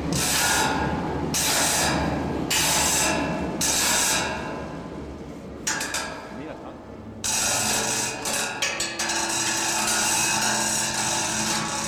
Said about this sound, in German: Klangbeispiel 27, Einfahren der S-Bahn